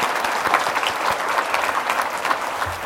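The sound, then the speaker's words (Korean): A church audience claps in thanks, a steady, dense round of applause that holds at an even level for about three seconds with no voices over it. “우리 감사의 박수를 드리겠습니다.”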